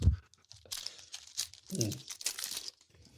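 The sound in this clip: Crinkling foil wrappers of Ferrero Rocher chocolates being unwrapped near a boundary mic on a table, in bursts of crisp crackling and tearing rustle, with a low voice murmuring briefly between them.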